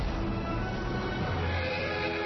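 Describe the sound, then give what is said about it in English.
A horse neighs in a trailer for the War Horse film, set within a dense, loud wash of sound that fills the whole clip. “This horse can pull through anything.”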